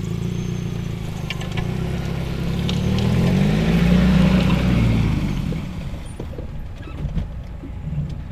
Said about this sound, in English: We are driving past lots of your vines now.